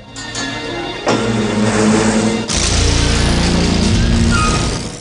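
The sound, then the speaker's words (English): A car drives away from an embassy, its engine loud and steady throughout, swelling sharply at about one second and again with a deeper rumble at two and a half seconds, with no voices. “The car leaves the embassy.”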